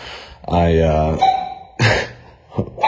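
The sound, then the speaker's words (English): A dog barks in a few loud bursts, including one sustained, tonal yelp-like call, with a person speaking around the barks. “Riley, it's okay. Sorry, got some dog action going on here.”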